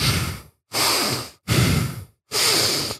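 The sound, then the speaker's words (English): A voice imitates a man's heavy, creepy breathing: four loud, raspy breaths in a steady rhythm, each separated by a brief silence. “this is the scene where Goodman's breathing scares me, dude. It's like,”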